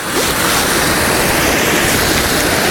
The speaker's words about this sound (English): I want this waterfall, I want this tree, and I might want this tree behind me as well.